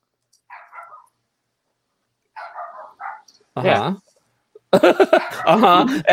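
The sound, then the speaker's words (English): A dog barks in a few short bursts, and then a voice starts talking over further sound. “Sorry, my dog's barking.”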